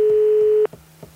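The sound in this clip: A telephone ringback tone on a call to a mobile number that goes unanswered: a single steady, flat tone holds for over half a second, then cuts off abruptly, leaving only a few faint low ticks.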